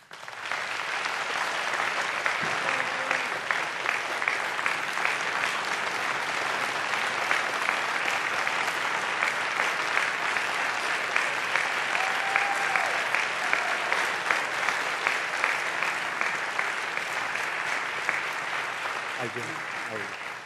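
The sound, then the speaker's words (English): Steady, dense applause from the audience in a presidential debate hall as the two candidates are welcomed onto the stage, continuous and even in loudness for the whole stretch without a break. “The audience here in the hall has promised to remain silent. No cheers, boos, or other interruptions, except right now as we welcome to the stage former Vice President Joe Biden and President Donald J. Trump.”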